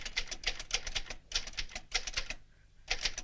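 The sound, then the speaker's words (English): Typewriter keys clacking inside an office late at night, in fast bursts of many strikes separated by short pauses, with no voices. “Going to investigate, she hears a clacking coming from inside Michelle's office.”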